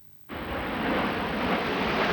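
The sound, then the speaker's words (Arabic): Roar of Royal Air Force aerobatic display jets flying over the Farnborough International Airshow. The loud, broad rushing sound starts abruptly and then holds steady with no voices. “ترسم طائرات السهم الأحمر التابعة لسلاح الجو الملكي البريطاني خطوطا ملونة في سماء فارنبورو”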